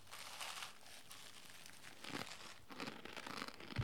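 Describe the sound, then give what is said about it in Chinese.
Crinkling plastic packaging as a Prince noodle snack packet is opened and its contents eaten: continuous rustling and crumpling, with a few louder crackly bursts toward the end. “虽然这个王子到现在还还是依旧年轻，其实已经是老王子， 老王子。 没错，哎，我赶快来吃一下，不然真的肚子饿了。”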